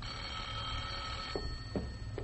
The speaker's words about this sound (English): For your information, there's the phone.